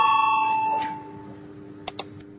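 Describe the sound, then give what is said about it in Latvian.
A parliamentary bell rings to call a vote, its clear ringing tone fading away over about a second, followed by two short, sharp clicks. “Ir lūgts balsojums, lūdzu zvanu, balsosim par 32. deputāta Valaiņa iesniegto priekšlikumu.”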